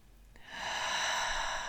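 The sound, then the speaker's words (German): A deep breath drawn in during a guided meditation, a soft airy hiss that starts after a brief pause and holds smooth and even for over a second. “Atme tief ein”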